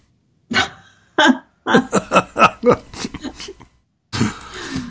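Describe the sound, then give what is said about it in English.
A dog barks in a home office. Two separate sharp barks come first, then a rapid string of many short, loud barks. “You can hear my dog barking.”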